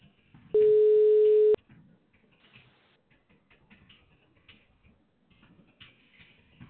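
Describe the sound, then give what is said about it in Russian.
A telephone ringback tone sounds while an automated call connects: a single steady, mid-pitched beep lasting about a second, followed by quiet line noise with faint crackles. “Мы производим повторный дозвон. Начинаем звонить абоненту. Ожидайте соединения.”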